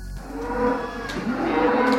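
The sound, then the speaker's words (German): Around 100 agitated cows and calves lowing in a free-stall barn on an agricultural school's farm, a dense, continuous din of overlapping low moos and bellows over steady background noise. “Im Freilaufstall im Gutsbetrieb der kantonalen Landwirtschaftsschule bei Winterthur regen sich die rund 100 Kühe und Kälber plötzlich fürchterlich auf.”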